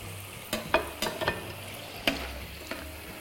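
Fried potatoes are lifted out of hot oil with a utensil to drain: a faint sizzle runs underneath several sharp, scattered taps and clinks, with no voices.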